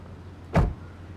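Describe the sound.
A single brief thud, like a car door, as people get out of a car. It cuts through a steady low hum and is over in a fraction of a second.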